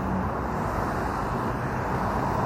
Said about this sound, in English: Yay, loud car, swoop-de-doo! Sound cars make.